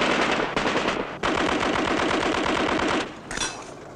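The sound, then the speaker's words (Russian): Rapid machine-gun fire in a tank battle, aimed at soldiers fleeing a burning tank. Loud, dense rattling bursts run almost without a break, with a short pause near the middle and a quieter, fading tail at the end. “стреляет по ним из пулемета”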